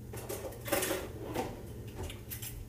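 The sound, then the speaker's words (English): A pizza slicer cuts through a baked flatbread pizza with melted, browned cheese. The rolling blade gives a few scraping, crackling passes at a steady, moderate level, with no voices. “So I'm going to cut into it and we're going to try it out. We're going to come over here and get our pizza slicer.”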